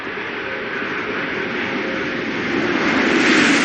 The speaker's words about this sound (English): landing gear down and locked.